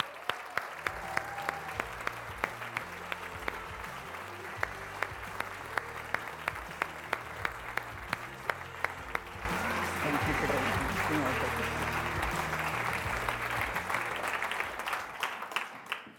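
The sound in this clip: An audience applauds after a speaker is introduced at a Pilates event in the UK. The clapping is faint at first, then swells into steady, full applause for the second half.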